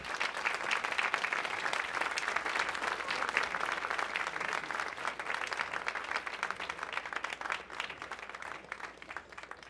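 Dense, sustained audience applause welcoming a chef and a guest moderator on stage at an evening event, a steady wash of many hands clapping at an even level throughout, easing slightly toward the end.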